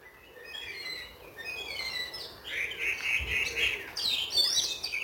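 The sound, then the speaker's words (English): A blackcap sings in a local green space, pouring out lively chattering warbles of bright, rapid, varied high phrases that repeat in bursts and grow louder toward the end, with no one speaking. “Just listen to that black cap going for it.”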